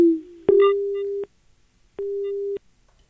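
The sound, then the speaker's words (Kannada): A telephone tone sounds after a call is disconnected: a short lower tone, then two steady, evenly pitched beeps separated by a pause. “ಕರೆ ತುಂಡಾಗಿದೆ.”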